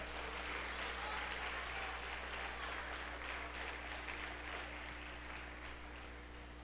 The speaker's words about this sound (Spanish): Dele un aplauso a Cristo.